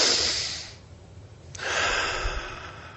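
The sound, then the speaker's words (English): One deep breath taken during a guided seated meditation: a loud, airy inhale, a brief near-silent pause, then a long, steady, hissing exhale, with no talk. “One deep breath.”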